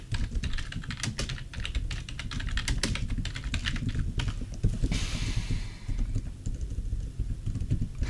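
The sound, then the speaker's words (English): Rapid typing on a computer keyboard, a dense, steady stream of crisp key clicks over a faint background hiss, with no voices. “So let's type it out.”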